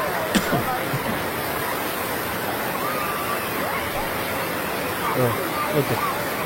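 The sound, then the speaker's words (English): Water in a soldiers' memorial fountain with kids swimming in it: a steady rushing, hissing wash of water with faint children's voices mixed in. “This is enraging. Get out of the fountain, kids, morons. Swimming in here.”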